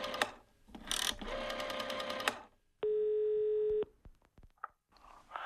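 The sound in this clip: A telephone dial tone, a steady mid-pitched hum lasting about a second, gives way to a short run of sharp dialing clicks and a brief tone. Loud rattling, buzzing mechanical sounds come before it.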